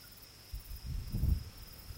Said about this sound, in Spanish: Suenan los grillos y unos débiles tambores en la lejanía.